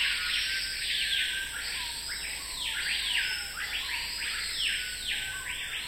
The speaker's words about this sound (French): C'est un lec d'un oiseau particulier qui s'appelle en latin Lipogus vociferans, le paipaio ou le capitaine de la forêt.